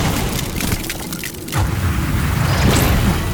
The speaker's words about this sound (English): It's power again. Whoa, he turned the fire on.